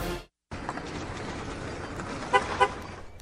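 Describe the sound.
An electric car's horn honks twice in short, bright beeps near the end, over a steady background rumble that starts after a moment of silence.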